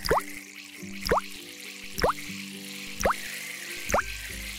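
Water drips while a seed is watered: five clear drops land about once per second, each a short bright plink whose pitch bends quickly upward, over a faint steady low tone.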